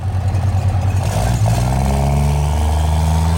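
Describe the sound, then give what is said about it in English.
A race car engine at the starting line of the Pikes Peak International Hill Climb 2022 gives a loud, deep, clattering rumble, then revs with a rising pitch partway through. “This is from the Pikes Peak International Hill Climb 2022. Never heard of her. This is what it sounds like to be at the starting line.”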